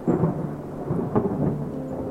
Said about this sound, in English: Lightning struck overhead. It couldn't have been but a mile or so away.